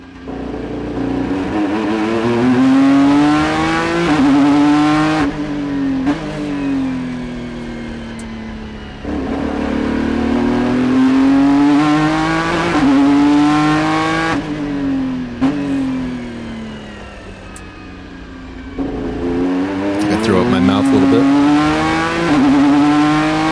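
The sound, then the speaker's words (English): A Ford GT's 3.5-liter twin-turbo V6 accelerating hard. The loud, raspy engine note climbs steadily in pitch, then drops sharply at each of several gear changes before climbing again. “here is the Ford GT, which is a 3.5 liter twin turbo V6 from episode 62 of the Marshall Pruitt podcast.”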